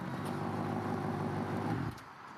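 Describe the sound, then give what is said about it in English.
A car pulls up outside a strip club at night: a steady engine rumble with road noise holds for about two seconds, then drops off sharply as the vehicle stops. “At night, a car pulls up to the strip club.”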